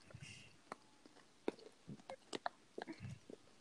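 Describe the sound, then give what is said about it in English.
Chomping on food, heard as faint, irregular wet clicks and crunches scattered through the stretch, with a few sharper bites standing out among softer mouth sounds. “Can you tell by my chomping?”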